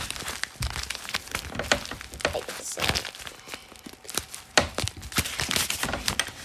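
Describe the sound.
Paper and packaging crinkling and tearing as a mailed package is opened, a dense run of irregular crackling rustles and sharp crinkles throughout.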